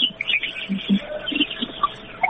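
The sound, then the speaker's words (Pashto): Birds chirp behind a caller on a phone line, with faint, scattered tweets over a thin, narrow-band line hiss. “تاسو شاته د مرغان او ژغونه هم دي”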